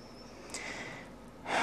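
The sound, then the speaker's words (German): A slow exhale during a guided breathing meditation. It is a soft, breathy rush of air that swells into a louder burst of breath at the very end. “Und wieder ausatmen.”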